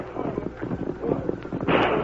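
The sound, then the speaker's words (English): Gunfire from a western radio drama shootout with cattle thieves: several sharp reports crack over a rough, noisy background. “Well, there ain't no harm in taking a last shot at them cow-stealing mavericks.”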